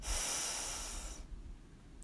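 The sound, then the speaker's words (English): A deep breath is drawn in through the nose during a guided relaxation exercise: a soft, airy hiss lasting just over a second, fading into near quiet. “let's take a deep breath in through our nose and exhale with a loud sigh through our mouth. So breathe in”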